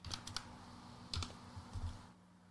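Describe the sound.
Keystrokes clatter on a computer keyboard in a few short, irregular bursts of sharp clicks with soft thuds beneath. No one speaks over them.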